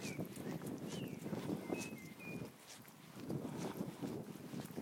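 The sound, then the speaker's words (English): Wind blows outdoors on an otherwise nice day, a soft, low rumbling buffet that swells and eases, with a few faint bird chirps above it. “Sorry about the wind. We just never get any weather without wind lately. I mean, we have a nice day, but it's windy.”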